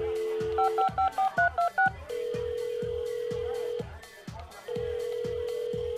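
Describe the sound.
A touch-tone telephone number is dialed: a quick run of about seven or eight short beeping key tones, then long steady ringing tones separated by a pause, over a regular low thumping beat.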